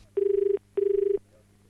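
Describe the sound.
Telephone ringing as a call is placed: two separate ring bursts, each a warbling, steady electronic tone about half a second long, with a short pause between them and faint background hum.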